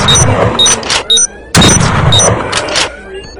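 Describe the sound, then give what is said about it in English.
Bolt-action rifle gunshots in a video game: two loud, sharp blasts a second and a half apart, each with a rumbling decay, with brief higher electronic tones sounding between them. “I'm going to press the space bar to fire. And this is my manual bolt gun.”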